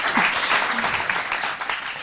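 An audience applauds a guest at a live interview event, producing dense, even clapping that holds steady for about two seconds.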